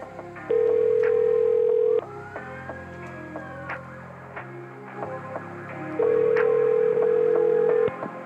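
Telephone tone on a call back, heard as two loud steady buzzing tones, the first about a second and a half long and the second about two seconds, over a dense, busy background.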